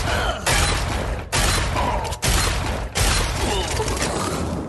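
Gunfire in a video game firefight: dense, loud bursts of rapid shots in several sustained runs, broken by brief pauses.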